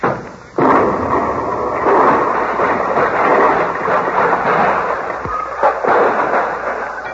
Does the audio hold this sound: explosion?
yes